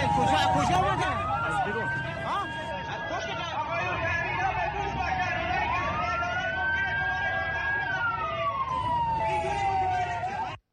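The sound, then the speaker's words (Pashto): An ambulance siren wails as it carries wounded people to hospital after a deadly attack in Iran. The loud tone rises and falls slowly and steadily over a busy wash of traffic and crowd voices, then cuts off abruptly. “د ایران تلویزیون هغه امبولانسونه ښایي چې په لسګونو زخمیان نږدې روغتونونو ته انتقالوي.”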